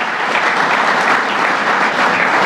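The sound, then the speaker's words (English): Crowd applause for Lieutenant Governor Kathy Hochul at a public event, thick continuous clapping from many people, loud and even from start to finish without voices on top. “Our great Lieutenant Governor Kathy Hochul, let's give her a round of applause.”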